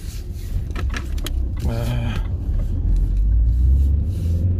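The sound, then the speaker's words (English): A car being driven, with a steady low engine and road rumble throughout, brief light jingling clicks early on and a short whirring tone in the middle. “I'm in my mum's car, as I always am when I'm recording this. Ooh, you can already hear how bad it is. How bad it being my driving.”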